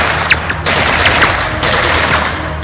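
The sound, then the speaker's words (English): Gunfire as a SWAT team opens fire: a dense, continuous, rapid rattle of shots that stays loud throughout, with only brief dips, and no voices. “They fire, but Zack's armor deflects them all.”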